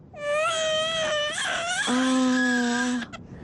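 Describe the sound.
A little girl cries alone in sustained, high wailing sobs. After a brief break, the wail drops to a lower, steadier pitch before it cuts off.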